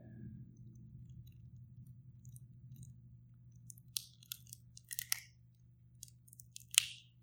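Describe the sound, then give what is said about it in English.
Faint, crinkly crackles of a cellophane top being peeled back from a small communion cup, brief rustles clustered toward the end over a low steady hum. “They have a little cellophane top. And what you do is you take the cellophane top and just peel it back.”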